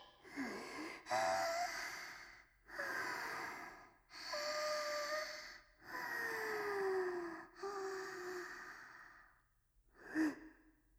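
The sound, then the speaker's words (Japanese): Deep breaths taken by a person bracing before going into a toilet: a series of long, slow, faint breaths with short pauses between them, ending in a brief final puff. “トイレ入る前に深呼吸する人初めて見た。”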